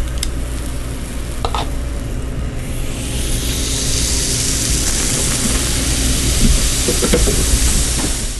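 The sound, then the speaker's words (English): Sizzling of waffle cone batter cooking on a hot waffle cone iron: a steady hiss that swells slightly louder partway through, with a few faint clicks. “So I'll just scoop up some batter, and then I just place it on the center of the iron.”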